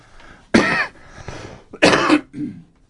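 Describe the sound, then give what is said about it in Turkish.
Someone coughs twice, harsh and loud, with a softer rasp trailing after the second cough and no talk around it. “Affedersiniz öksürük için.”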